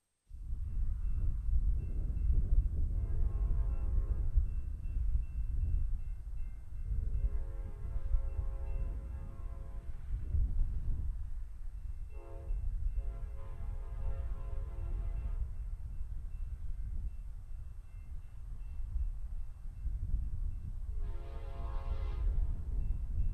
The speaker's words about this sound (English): I got some good recordings of that horn over the years. So here we go. November 26, 2009, the westbound California Zephyr.